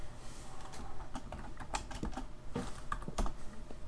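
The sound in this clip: Typing on a computer keyboard: many quiet, rapid keystrokes clatter unevenly throughout, alone without talk.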